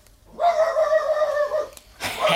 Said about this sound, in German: Ich warte, bis der Hund wieder bellt.